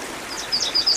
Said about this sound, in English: So we're going to be doing the yellow warbler today, of which they're starting to show up.